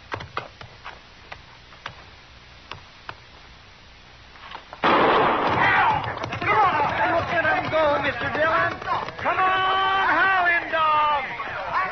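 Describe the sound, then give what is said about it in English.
A single gunshot fired to start a horse race, heard as one sharp crack after a few faint ticks, followed at once by loud, continuous crowd shouting and voices. “Now I'll fire one shot.”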